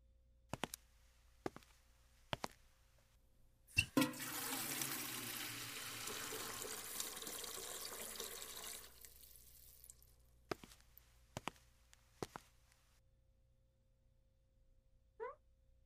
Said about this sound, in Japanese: 水道はあちらです。お湯も出ますのでご心配なく。